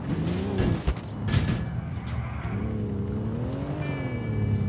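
A car taken from a parking lot is driven in the video game GTA IV. The engine gives a steady droning hum whose pitch wavers up and down with throttle, at a moderate level throughout.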